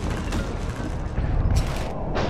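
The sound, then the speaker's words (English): A bomb explosion blowing off half a building's roof: a loud, sustained roar with heavy low rumble and crackling bursts throughout. “Holy hell, will you look at that? That damn bomb blew off half the roof.”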